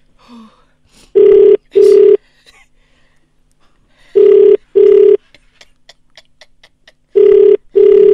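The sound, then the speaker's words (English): Telephone ringback tone on an outgoing call that goes unanswered: three evenly spaced double rings, each a pair of short, steady, mid-pitched buzzes, separated by quiet gaps with no pickup. “Oh, she's not picking up. That's fine, we'll leave a voicemail.”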